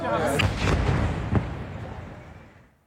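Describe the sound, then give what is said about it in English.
Explosion from an Israeli fighter jet strike on a residential building near Al-Aqsa Hospital in Deir al-Balah, central Gaza, a heavy deep rumble with a few sharp cracks early on that slowly fades away over the last second. “This is the moment Israeli fighter jets struck a residential building near Al-Aqsa Hospital in Deir al-Balah in central Gaza.”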